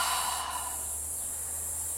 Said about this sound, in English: And as you exhale, you might want to just exhale out loud